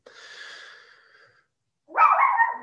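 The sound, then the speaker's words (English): A little female dog barking at a horse: first a soft, breathy whine, then after a short pause a single loud, sharp bark. “that's our little dog. Come here. She's barking at the horse.”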